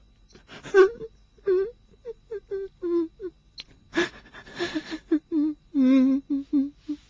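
A person cries with wailing moans and whimpering sobs: many short, pitched, wavering bursts separated by breaths, growing louder and more tremulous toward the end.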